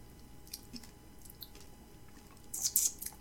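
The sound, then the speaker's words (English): Chewing a peanut M&M candy: faint, soft crunches and squishy bites, rising to a louder cluster of crisp crunches near the end, with no talking. “I'm tasting a peanut M&M right now.”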